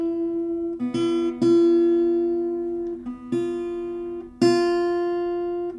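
A sustained musical note F is struck again a few times. Each attack rings clearly and slowly decays before the next one.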